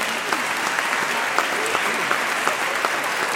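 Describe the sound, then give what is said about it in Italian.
Steady applause from an audience at a choir festival, greeting the choir from Catena: dense, continuous clapping that stays at an even level throughout, with a few sharper claps standing out. “Adesso possiamo fare l'applauso al coro di Catena che è arrivato”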